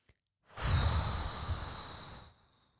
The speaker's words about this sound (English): we'll take three breaths in through the nose and out the mouth.